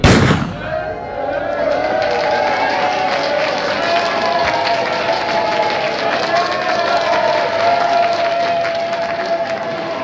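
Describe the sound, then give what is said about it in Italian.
A starting pistol fires a single sharp shot at the start of a race. Sustained crowd noise with voices follows as the racers move off. “Lo start della North Cape è con una pistola, per cui segnano tutti sulla linea di partenza e poi c'è una persona che spara e si parte tutti in questo modo.”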